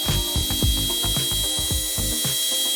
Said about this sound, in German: Wirklich niemand, den ich kenne zumindest, ich auch nicht, geht gern zum Zahnarzt und lässt sich da an den Zähnen rumbohren.